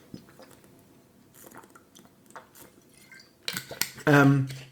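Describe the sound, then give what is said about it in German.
Someone taking a drink: faint clinks and soft wet mouth noises at first, then a louder burst of handling and gulping near the end, followed by a short voiced sound. “Ihr hört das, ich kriege überhaupt keine Luft gerade. Dann müssen wir was trinken.”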